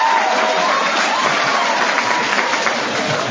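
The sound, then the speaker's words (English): Audience applause said to come mostly from women while the men sit unmoved: a continuous, even roar of many hands clapping, steady in loudness throughout. “Jesus, the only ones clapping's the women. The guys are all sitting there grumpy.”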